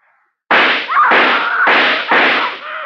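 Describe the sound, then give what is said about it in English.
Four gunshots fired into a wall crack out in quick succession after a brief silence, each a loud, harsh burst with a short rough tail. “Take the rest of the bullets out of this gun, that's all.”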